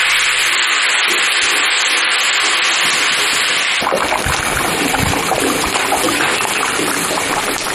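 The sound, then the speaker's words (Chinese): Home-cured pork fat fries with rapeseed oil in a loud, continuous sizzling hiss. About halfway through it turns rougher and more crackly, with no voices. “放一点自家杀猪留下的肥肉，混着菜籽油一起炒到金黄，还要加入半碗自己秘制的辣椒酱。”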